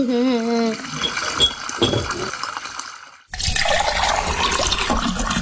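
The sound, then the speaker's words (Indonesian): Water gushes from an open tap in a steady, hissing stream, dipping briefly before surging back louder and fuller. “Eh, ngomong sama air ya, lebih bagus kalau kerannya itu ditutup. Kan airnya jadi terbuang percuma.”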